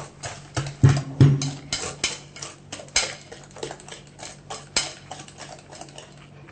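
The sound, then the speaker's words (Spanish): Whisking batter made with soda water produces many quick, rhythmic clicking and tapping strokes against the bowl, steady and moderately loud throughout, with no talk. “Y ahora tenemos que hacer una masa bien homogénea. Exactamente, ¿ven cómo se van uniendo los elementos? Esto lo vamos a ir batiendo un poquito más.”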